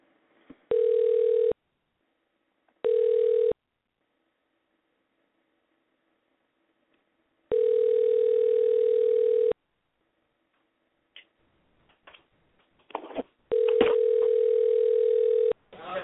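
An outgoing telephone call rings on the line: four steady, mid-pitched tone bursts separated by silent gaps, the third and fourth longer than the first two. A few faint clicks come just before the last tone.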